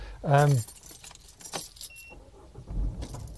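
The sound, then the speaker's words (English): Keys jangle as a car is started in a supermarket car park. A single short, high beep sounds, and a low engine rumble builds near the end. “Excuse the beeping as I start up the car.”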